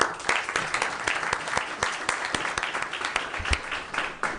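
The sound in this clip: Applause in a state Senate chamber welcoming state employees: a steady round of crowd clapping that carries at an even level from start to finish, dense with individual hand claps.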